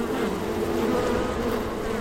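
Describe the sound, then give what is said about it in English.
Dense, steady insect buzzing from bees at a hive under attack by hornets the size of hummingbirds, a continuous droning hum with no pauses and no voices. “The army is basically between 3 and 50 hornets, the size of hummingbirds. And each one has jaws that can decapitate a bee in a single bite. And so as the bees emerge to defend their home,”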